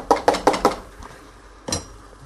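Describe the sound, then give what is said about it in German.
Button mushrooms are added onto cooked sliced meat in a pan, giving four quick clinks and clatters in a steady row, then a pause and one more clatter over a faint background hiss. “Das Geschnetzelte, das Fleisch ist gar. Ich tue jetzt die Champignons da drauf.”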